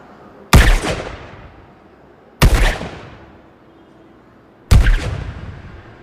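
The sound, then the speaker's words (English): Three loud gunshots about two seconds apart, each a sharp crack that trails off in a long, booming decay, with quiet in between. “Shots fired, 147 Maple Street. Requesting backup.”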